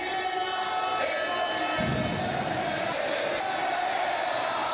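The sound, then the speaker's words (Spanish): Stadium crowd chanting at El Molinón after Sporting's 2-0 win over Villarreal: a dense, steady roar of many voices singing together, loud and unbroken for the whole stretch. “Sporting es de primera. El Sporting es de primera, lo cantaba el público, lo cantaban nuestros compañeros en el estadio.”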